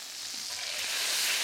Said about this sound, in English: Okay, now the heat goes back on. And I'm gonna add some Dijon mustard. It gives the sauce a great, great tanginess.